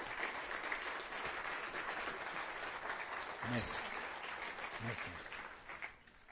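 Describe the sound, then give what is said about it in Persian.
An audience claps steadily in quiet, dense applause, with a couple of brief vocal calls rising over it before the clapping tapers off at the end. “حالا چیکار کنیم که این تعادل ایجاد بشه؟ چیکار کنیم؟ دست میزنیم.”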